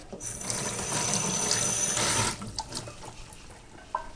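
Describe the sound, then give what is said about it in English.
Tap water rushes from a faucet as a small handful of parsley is rinsed. A steady, loud hiss cuts off after about two seconds, followed by a few faint clicks and clatters. “So I just rinsed a small handful of parsley.”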